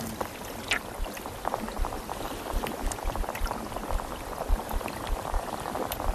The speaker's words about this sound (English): And we're going to play the sound of a less healthy reef.